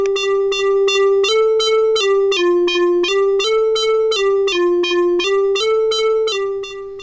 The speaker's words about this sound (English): And that's what gives us our random melody, which basically sounds like this.